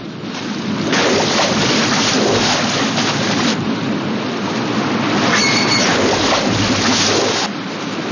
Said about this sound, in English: Bobby's jaw drops at a waterfall up ahead. Race down, just managing to stay upright, but the relentless torrent carries them onward.